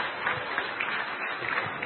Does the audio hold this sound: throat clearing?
no